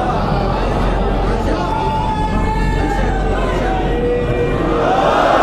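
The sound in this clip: An audience at a religious address chants a slogan together, massed voices shouting loudly and continuously, swelling a little toward the end.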